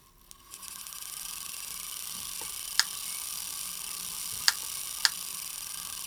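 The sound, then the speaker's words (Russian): An electrophorus machine working in a room gives a steady whirring hiss with faint ticking. Three sharp spark cracks stand out above it, and the hum starts quietly and builds up in the first half-second. “Сейчас вы слышите, как работает электрофорная машина. Это такое устройство, которое прямо у нас в комнате может создавать маленькие настоящие молнии.”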